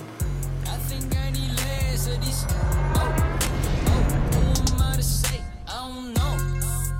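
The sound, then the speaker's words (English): A Jeep drives off across empty concrete, its engine giving a loud, steady rumble that dips briefly near the end before surging again. “They climb back into the Jeep and drive off across the empty concrete, with high rises and traffic in the background.”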